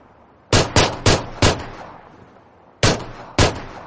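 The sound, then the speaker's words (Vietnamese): Gunshots fired at a target: six sharp, loud cracks with short decaying tails, four in quick succession, then two more after a pause. “Sau khi nghe câu trả lời lần thứ hai của Kiều Gia, anh ta đã thu súng lại, tùy ý nhắm thẳng bia mà bắn.”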